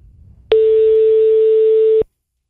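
Telephone tone on an outgoing call: one steady, mid-pitched electronic beep held for about a second and a half, clean and alone with no talk.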